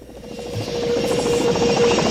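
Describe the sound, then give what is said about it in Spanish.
A helicopter-like whirring buzz with a rapid chopping pulse and a steady midrange tone, continuous for the whole stretch and growing slightly louder. “Ah, no, pero es un helicóptero. Es un helicóptero.”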